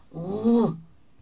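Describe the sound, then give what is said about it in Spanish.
A small child imitates a dog for a grandmother: a single drawn-out voiced woof that rises and then falls in pitch, loud and alone. “Enséñale a la abuelita cómo se hace el perrito.”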